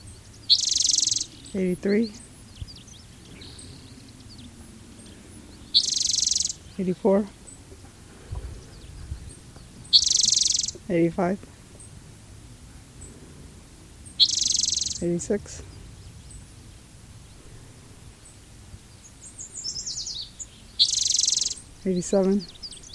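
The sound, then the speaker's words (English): Yellow warbler song: five bright, high-pitched song phrases repeat at fairly even intervals, with fainter lower calls in between over a quiet background. “the yellow warbler”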